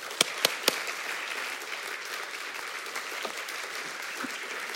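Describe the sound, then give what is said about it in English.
Audience applause welcoming a speaker onto the stage: a few sharp claps open a dense, steady wash of clapping that holds evenly to the end. “So I'd like everyone to put their hands together”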